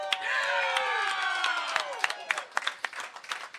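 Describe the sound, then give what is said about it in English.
Indiana Hoosier fans shout and whoop, making noise in a burst of cheering that gives way to scattered individual claps in the final seconds. “If you're a real Indiana Hoosier fan, stand up. Make some noise.”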